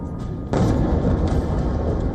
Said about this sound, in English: A series of explosions ring out.